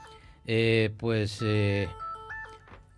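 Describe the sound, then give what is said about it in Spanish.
A phone ringtone signals an incoming call from Ecuador: three loud, bright melodic bursts of sustained tones in close succession, followed by quieter, fainter sounds that may include a voice. “vamos a ver, están llamando de Ecuador, un momentito, cortamos la llamada, a ver qué pasa, ¿quién es?”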